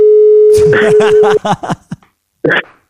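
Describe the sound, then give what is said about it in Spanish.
A steady telephone call tone holds one unbroken mid-pitched note for about a second and a half, with a man's voice starting partway through and talking over it. Speech carries on briefly after the tone stops. “Llamo a mi primo Sergio, tío. Voy a ver si está mi primo Sergio.”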